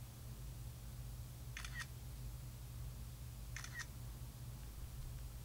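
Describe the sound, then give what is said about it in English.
Two brief, crisp clicks of a phone camera shutter taking a selfie, spaced about two seconds apart, sounding faintly over a steady low hum. “Are we on? It's taking a selfie. How embarrassing is that?”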